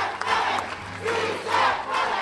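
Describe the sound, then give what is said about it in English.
A crowd cheers inside the sanctuary of the 16th Street Baptist Church at a rally launching a campaign to repeal the HB 56 immigration law, a dense, sustained roar of shouts and cheering voices that swells and dips. “Tonight, though, the sanctuary explodes with cheers.”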